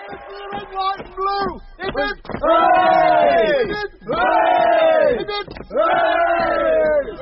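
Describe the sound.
A crowd cheers and shouts hurrahs for the Navy and Kitchener: a few short calls, then three long, loud, swelling shouts, each sustained for about a second.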